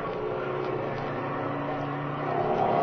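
Airplane engines roar through a dogfight in an old radio drama sound effect, a steady droning hum that swells slightly louder toward the end.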